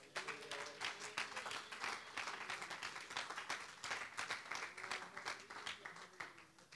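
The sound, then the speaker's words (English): A church audience claps hands in a fairly regular rhythm, the many crisp claps blending into a lively, continuous patter with voices or tones running faintly underneath. “Let's clap our hands.”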